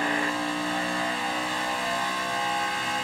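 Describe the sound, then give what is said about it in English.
Race car engine heard on board the number 4 car as the field comes to the green flag: a loud, steady, droning roar with a strong even tone and no voices. “So we're coming to the green here, on board the 4 car. Now they're going through the gears.”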